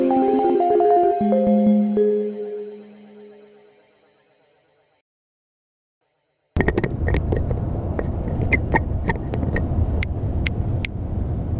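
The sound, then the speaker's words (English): A car driving along a small street gives a steady road and engine rumble with occasional sharp clicks, starting abruptly after a tonal passage fades into silence. “So, we're just driving through a pretty kind of small street now,”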